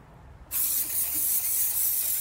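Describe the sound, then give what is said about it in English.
Loud, steady hissing spray over a chicken hut and its enclosure. It starts abruptly after about half a second and continues without a break to the end. No voices are heard. “I love the spray because I can spray and get coverage on the whole hut, the whole enclosure,”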